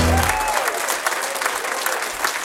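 An audience applauds to welcome two hosts at a live jazz show's 700th edition in Schwerin, a dense, even wash of clapping that holds steady throughout.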